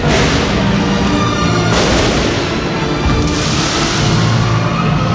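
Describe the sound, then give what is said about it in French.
Fireworks going off in a shopping mall gallery as the Christmas illuminations begin, a loud, continuous roar of booms and crackles with no pause. “C'est extraordinaire ce qu'on voit là. Il y a un feu d'artifice, du feu de Dieu, sonore, infernal.”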